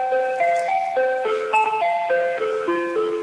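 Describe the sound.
Telephone hold music of an Asian style, a loud, simple electronic melody of many short, steady, bright notes stepping up and down at an even pace, with no voices.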